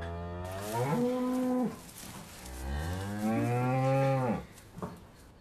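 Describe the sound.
A calf mooing on a farm: two long, loud, tonal moos, the second deeper and more drawn out, with no talk over them.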